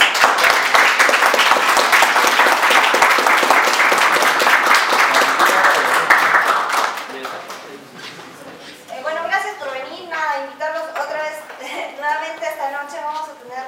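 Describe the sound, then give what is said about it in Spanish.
Applause closes a master class: loud, dense clapping holds for about seven seconds and then fades away. A person starts speaking shortly afterward. “Un aplauso.”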